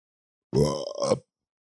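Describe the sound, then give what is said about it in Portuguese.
A man with an upset stomach lets out a single voiced burp, a deep, croaky belch lasting well under a second, heard alone with silence before and after. “O estômago já tá ficando ruim. Eu tô arrotando, dá uma ligada.”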